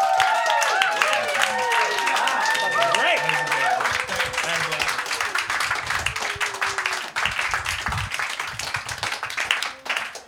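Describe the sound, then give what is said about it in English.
Audience applause and clapping at a comedy show, a dense, steady wash of many hands that fills the whole stretch, with a voice speaking over it near the start. “All right, give it up again for Ian.”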